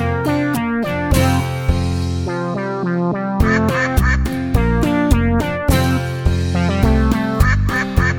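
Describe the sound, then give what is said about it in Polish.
Duck quacks run through a cheerful Polish children's song about a duck. They come in rhythmic runs of short quacks over bright, steady music with a regular beat. “Kwa, kwa, kwa, kwa, kwa, kwa. Taką mowę kaczka ma.”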